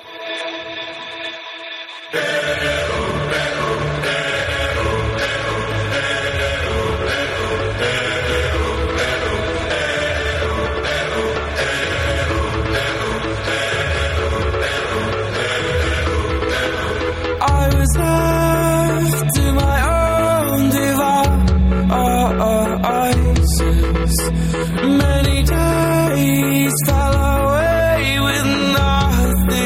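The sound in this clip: A band's song played from an album. A soft, thinner opening gives way after about two seconds to steady, full music, which swells louder and denser with heavy bass and busy upper layers in its second half.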